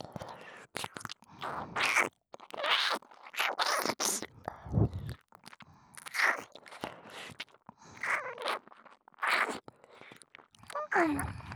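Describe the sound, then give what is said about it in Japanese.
Wet ear-licking and mouth sounds in a Japanese ASMR recording: many soft, irregular smacking and slurping bursts with brief pauses between them, quiet throughout. “気持ちよくしてあげるからね。僕のお耳いっぱいいっぱい舐めちゃうから。”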